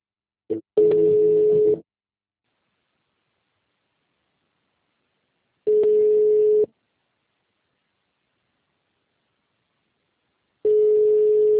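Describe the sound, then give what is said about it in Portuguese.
A telephone voicemail tone: a short blip, then three steady, low-pitched electronic tones, each about a second long, separated by long stretches of silence. “Sua chamada está sendo encaminhada para a caixa postal, que estará sujeita à cobrança após o sinal. Deixe seu recado.”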